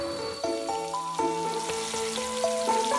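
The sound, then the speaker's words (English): Food sizzles in a pan as a wife cooks something at home. A steady, crackling hiss runs beneath sustained musical tones. “My wife is cooking something delicious.”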